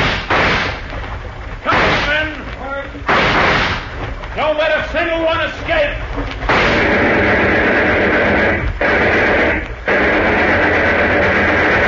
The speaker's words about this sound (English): The rest of you better start shooting with me.